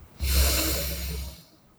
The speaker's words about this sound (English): inhale, exhale, and inhale one more time,